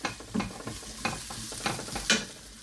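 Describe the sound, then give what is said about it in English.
Cooked, cooled rice hits a hot pan with a sizzle while a utensil stirs and scrapes it around, producing several short scraping bursts over a steady crackling fry. “So you've already cooked and cooled your rice, importantly. And we're going to re-add the rice to the pan.”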